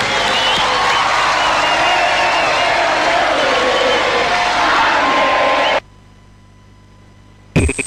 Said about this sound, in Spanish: Este aplauso saluda al poeta Lou Reed.